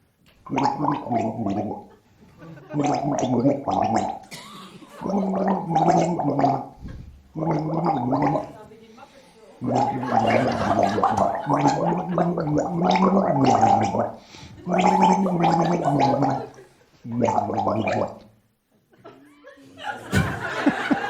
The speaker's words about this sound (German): Bist du sicher, dass du gegurgelt oder getrunken hast?